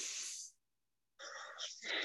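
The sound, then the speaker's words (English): Airy nasal breathing during a guided breathing exercise, with two loud, hissing breath sounds separated by a brief silent pause. “taking a deep breath into the nose,”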